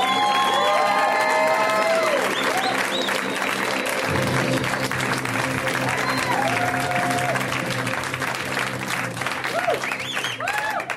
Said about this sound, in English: Ladies and gentlemen, please welcome to the stage Mr. Baratunde Thurston. Give it up for Baratunde!